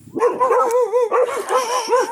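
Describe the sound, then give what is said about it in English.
Dogs bark and yip in a rapid, overlapping stream of high-pitched yelps and whining cries. The yips rise and fall in pitch, loud and continuous, with no pause between calls. “is that the noise? Thank God it's just the dogs.”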